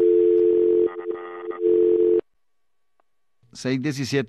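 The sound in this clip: A steady telephone tone on a call-in line after a dropped call, loud and level for about two seconds with a brief wobble in the middle, then cutting off into silence before a voice starts talking.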